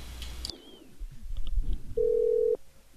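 Telephone ringing during a test call: a single steady, mid-pitched ring tone of about half a second stands out after quieter rustling and background noise.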